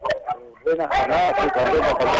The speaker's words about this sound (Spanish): ¿Lo están corriendo los perros